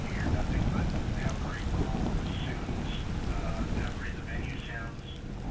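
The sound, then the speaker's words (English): Thunder during a rainstorm: a deep, rolling low rumble that carries on throughout, with a constant patter of rain over it, loud at first and easing slightly toward the end. “Thunder!”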